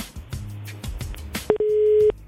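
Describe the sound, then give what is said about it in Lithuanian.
A telephone busy tone after a call's signal drops: a few crackling clicks, then a steady, mid-pitched electronic beep that holds for about half a second. “Aha, pas kažkurį dabar telefonas staiga dingo signalas”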